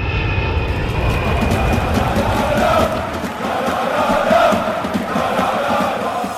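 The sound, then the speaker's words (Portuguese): An airplane flying past as a sound effect: a loud, continuous engine roar that holds steady, swelling slightly partway through before settling again. “Vamos pegar o avião. Pega aí.”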